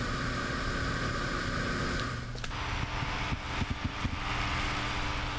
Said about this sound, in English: They're way less reliable than SSD drives because of the moving parts, and they're really noisy. The parts grind and sing to the point where I have them on my desk covered with a towel to muffle the sound.